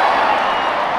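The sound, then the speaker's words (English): Roar of a baseball stadium crowd of about 30,000 people as a runner is called safe at third: a loud, dense wall of cheering and clapping held steady for a second. “The roar of the crowd tells the story. I think that is the sound of, what, 30,000 people.”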